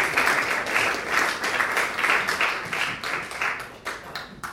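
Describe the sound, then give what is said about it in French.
Audience applause greets a speaker at a public university lecture: many hands clapping in a dense, steady patter that stays loud throughout and tapers only slightly near the end. “Donc merci de faire une ovation à monsieur Michael Lewis”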